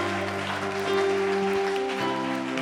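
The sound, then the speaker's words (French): Congregation applauding to acclaim God during a church service: steady clapping beneath a sustained musical tone that holds throughout. “Acclamons Dieu. Disons merci à Dieu pour tous ses bienfaits.”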